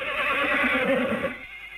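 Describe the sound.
A flying horse neighs: one long, loud whinny with a shaking, wavering pitch that holds steady and then cuts off sharply near the end.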